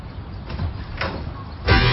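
A house door is opened for a visiting neighbour, giving a few short bursts of rattling and handling noise, with the loudest and fullest burst near the end.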